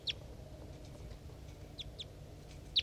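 Three caged birds, a decoy and a wild bird, interact 2 meters from the cage. A few brief, high, sharp chirps are spaced irregularly over faint, steady low background noise.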